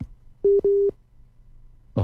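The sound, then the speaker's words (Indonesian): Phone line tone after a call cuts out: two short, clear mid-pitched beeps in quick succession over a low hum, then a brief burst of noise at the end. “agak terputus sambungannya. Kok putus?”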